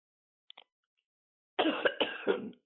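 A person with allergies coughs and clears their throat. A faint, brief sound comes first, then a loud, rough run of several raspy coughs and throat-clearing bursts, with no talk.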